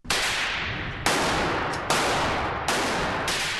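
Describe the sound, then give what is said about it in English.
Four loud pistol shots ring out at an indoor shooting range, spaced roughly a second apart. Each is a sharp crack followed by a long, slowly fading tail. “The pistol range here is busy today.”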